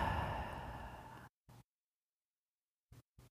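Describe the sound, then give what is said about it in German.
Deep breathing in and out during a guided relaxation exercise: one long, steady, airy breath, then a few short, soft breath sounds separated by silence. “Und dann atme noch dreimal ganz tief ein und wieder aus.”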